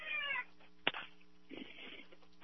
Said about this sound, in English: We got four cats on the stove that are begging to be fed.